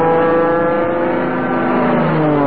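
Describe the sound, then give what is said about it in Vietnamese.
A motorbike speeding along gives a loud, steady engine drone with a strong humming tone that holds level throughout and does not fade away. “Snow thấy bây giờ các đôi nam nữ học sinh sinh viên nhà mình toàn đi xe máy thôi. Phóng cứ phè phè.”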